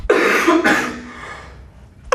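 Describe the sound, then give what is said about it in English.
A person with a current cough lets out two loud, harsh, chesty coughs in quick succession, the noisy tail fading away afterward. “I've got this cough at the moment, sorry.”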